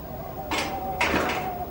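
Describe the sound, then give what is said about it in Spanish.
A battered tank's hatch opens with two rough, scraping metallic bursts, about half a second apart, over a faint steady tone. “¡Miren! ¡La escotilla se está abriendo!”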